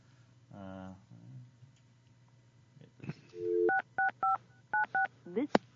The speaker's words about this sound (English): Can we get him on the line? Well, hold on. Let's dial him up.